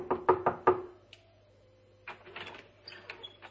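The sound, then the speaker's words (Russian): Four firm knocks on the door of a wife's chamber in rapid succession, loud and hollow, then a pause and a scatter of softer, irregular clattering sounds, with no voices. “пройдя его, постучал в дверь покоя своей жены”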